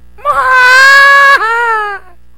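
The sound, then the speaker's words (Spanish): A child screams in one long, high, wailing cry that drops sharply in pitch near the end and then tapers away. It is loud and stands alone, with no speech. “El lobo escucha los gritos y se asoma por la ventana.”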